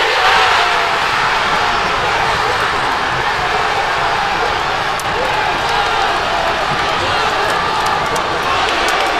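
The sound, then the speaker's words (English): Dense, loud crowd roar of football supporters in Manchester celebrating England's winning goal against DR Congo at the World Cup, a steady wash of cheering and shouting voices that stays intense for the whole stretch. “That's the sound of supporters celebrating in Manchester as Harry Kane scored the winner.”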